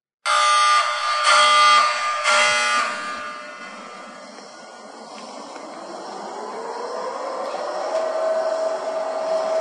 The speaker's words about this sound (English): Don't you love the klaxon in the beginning of that?